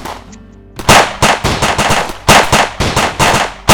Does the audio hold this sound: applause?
no